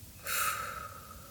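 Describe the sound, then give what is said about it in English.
A deep breath drawn in and released: one soft, breathy rush of air that swells quickly and then slowly fades, quiet overall. “Everybody fill up those lungs deeper this time. Deep breath in. And release it all out.”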